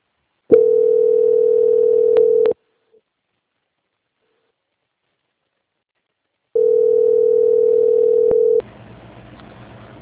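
Telephone line tone while a call is transferred: two loud, steady single-pitched tones of about two seconds each, separated by several seconds of silence, then a faint hiss of line noise.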